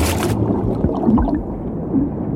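A man dives into water by a shore: a short, bright splash opens, then gives way to low, muffled gurgling and bubbling that lingers without talk.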